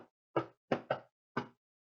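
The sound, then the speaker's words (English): Knuckles knocking on a door: a short, uneven run of crisp, hollow raps, two of them close together, each ringing out briefly into silence. “Wait, can I knock? Yeah, you can knock.”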